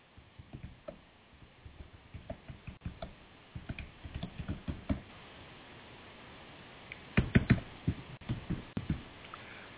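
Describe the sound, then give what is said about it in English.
Typing on a computer keyboard: many soft, irregular keystrokes in quick bursts with short pauses, fairly faint and heard alone without speech. “I can't type today.”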